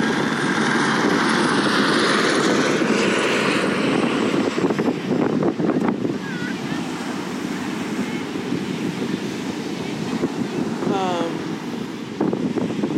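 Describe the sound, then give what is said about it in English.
A helicopter flying overhead gives a loud, steady roar of engine and rotor noise with a wind-like rumble throughout, easing slightly after the midpoint. “Look at that helicopter.”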